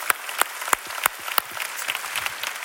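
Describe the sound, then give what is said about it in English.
Applause from a church audience: many hands clapping in a steady, dense patter with a few sharper claps standing out, heard alone without talk. “Let's give them a big hand.”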